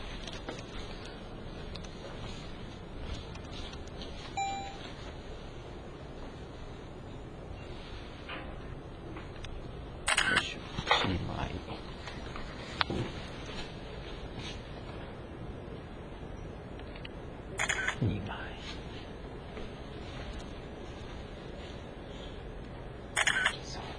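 Camera shutter clicks as photos are taken: a few short, sharp clicks spaced apart over a faint, steady background hiss.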